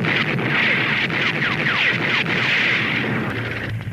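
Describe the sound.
Heavy gunfire bursts out after an order to fire in a drama: many sharp reports in quick succession over a dense, sustained rumble that carries on for the whole clip.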